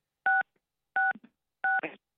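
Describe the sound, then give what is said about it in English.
Telephone keypad dialing tones: three short, steady dual-pitch beeps at even intervals, fairly quiet, with faint clicks and rustle after the second and third. “I don't know what that beeping is. Somebody's dialing a phone.”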